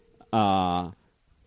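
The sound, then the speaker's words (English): A phone ringing: a single buzzy electronic tone sounds once, steady in pitch with sharp start and stop, lasting just over half a second amid quiet. “there is a phone ringing. There's a phone ringing. Who could that be? But it seems to be ringing.”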